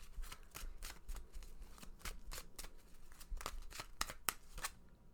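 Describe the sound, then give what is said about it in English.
Tarot cards being shuffled make many crisp, papery riffling bursts in an uneven rhythm. They are faint and quiet, with no one talking. “let's go ahead and pull a card for the week, see what it is that you need to know.”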